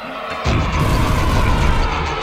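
A cannon fires a projectile shell meant to carry travellers to the Moon: a sudden loud blast at about half a second, then a heavy, sustained roar that holds steady to the end.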